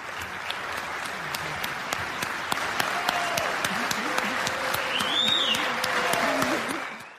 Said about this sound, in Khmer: វាជាពេលដ៏រំជួលចិត្តមួយនៅពេលដែលសមាជិកសភាអាមេរិកទះដៃសាតូមេដឹកនាំអ៊ុយក្រែនលោក Volodymyr Zelensky ដែលថ្លែងទៅកាន់សភាអាមេរិក